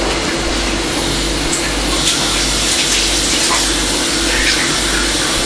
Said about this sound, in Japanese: ちょっと手洗ってこよう。